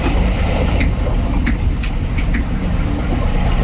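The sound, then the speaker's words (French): A solar catamaran cruises on a river: a steady, even wash of low noise with a few faint clicks over it. “un passionné qui nous fait découvrir l'univers de la batellerie à bord d'un catamaran solaire. Et même pas besoin des gilets de sauvetage, vous allez l'entendre, c'est plutôt calme, on embarque avec Évasion Fluviale.”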